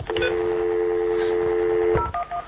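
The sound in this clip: Telephone dialing tones during a call attempt: a long steady low tone holds for about two seconds, then a few short dual-pitched beeps follow.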